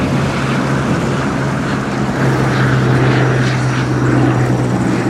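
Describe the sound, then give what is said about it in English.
Propeller plane engine droning steadily as the aircraft glides down to land on a runway at a headquarters airstrip in Northern Kenya; a loud, even hum with a low tonal whine that holds throughout, with no voices. “Zebras scatter from the runway. The plane glides toward the ground. It lands.”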